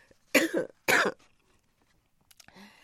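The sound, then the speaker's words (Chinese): Throat clearing: two loud, rasping, cough-like bursts in quick succession, followed by a few faint small noises. “先清清嗓子啊”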